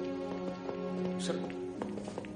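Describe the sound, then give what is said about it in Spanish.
Hurried footsteps of a woman running out of a house, a few light taps and thuds under sustained, tonal music. “Mary Jane se va corriendo de la casa.”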